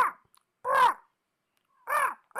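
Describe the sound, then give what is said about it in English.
Raven cawing from a wooden beam above a door: loud, harsh, hoarse calls in separate bursts with short silences between, and no voices. “Perched on a wooden beam above the door is a raven. As you approach, it starts to”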